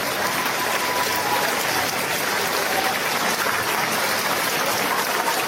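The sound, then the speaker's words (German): A crowd cheers and applauds at a Bulgarian election rally for Rumen Radev, the 62-year-old reserve general and former air force chief, in a dense, sustained, loud roar with no breaks. “So klang es in den großen und kleineren Städten, wo der 62-jährige Roman Radev Wahlkampf machte. Überall, wo der General der Reserve und Ex-Luftwaffenchef auftrat, wurde er als Hoffnungsträger bejubelt.”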